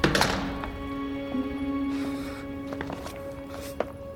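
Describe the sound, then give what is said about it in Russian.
Knocking on an apartment door: a few dull, irregularly spaced knocks over a steady low hum. “Стучится в квартиру купца. Купец открыл и тут же закрыл.”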